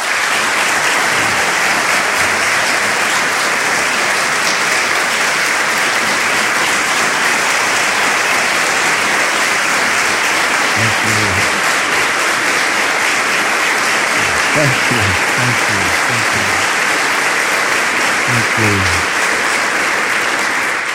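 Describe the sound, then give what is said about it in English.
A standing ovation welcoming a bishop before his talk: dense, sustained applause that stays loud and steady for the whole stretch, with a few faint voices underneath. “I am always intimidated when I get a standing ovation at the beginning of a talk.”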